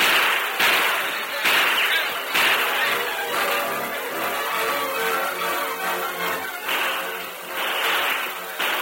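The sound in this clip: Gunfire cracks during a Western shootout between outlaws and an oncoming posse. Several sharp, whip-like reports come at irregular intervals over a continuous, noisy background.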